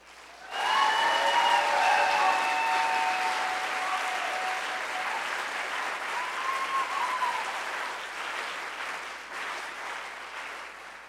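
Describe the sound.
Applause welcoming a racial justice author onto a Seattle stage, bursting in suddenly, peaking with a few high cheers early on, then gradually thinning and fading over about ten seconds.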